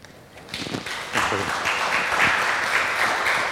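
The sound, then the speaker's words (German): Audience applause welcoming a speaker to a conference talk: scattered claps swell after about a second into a steady, dense clapping that holds to the end. “Have a great talk, and a big welcome for Sergey.”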